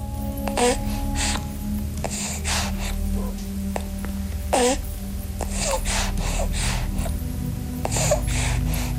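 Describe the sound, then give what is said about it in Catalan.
A breastfeeding baby suckles with soft snorting breaths, little gasps and brief wavering vocal sounds, coming in many short bursts at a fairly steady level. “Aquest nadó, com tants en la seva curta edat, està xumant. S'alimenta a través de la lactància materna”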